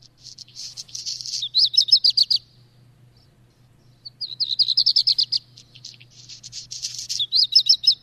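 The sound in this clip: High bird song with a dry, crumpled-paper quality, heard in city parks. It comes in three bursts of buzzy notes that end in rapid repeated trills, with a clear pause after the first burst, over a faint low hum.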